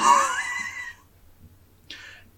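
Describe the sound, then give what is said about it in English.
A deep breath, drawn as a breathy rush lasting about a second with a faint voiced edge. After a short silence comes a brief, softer puff of air. “Sorry, just distressed a bit. Yeah, let me just take a deep breath.”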